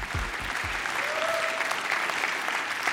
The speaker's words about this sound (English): Life Center, would you put your hands together and welcome him to the stage today.